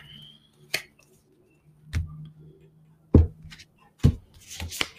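Cards being handled and shuffled for a weekly card reading, a few sharp flicks and snaps separated by quiet gaps, growing busier toward the end.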